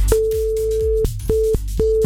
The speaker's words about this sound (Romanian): Așa că o să dau un telefon. Vedem dacă mi se răspunde sau nu.